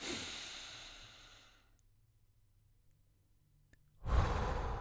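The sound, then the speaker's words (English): One big inhale through the nose in a guided breathing exercise: a soft breath trails away into a quiet pause, then a sudden loud, breathy rush of air rises near the end. “So start off with one big inhale through the nose.”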